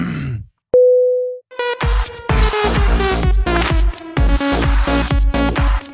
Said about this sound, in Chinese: 最后给你轻轻挂断了，拜拜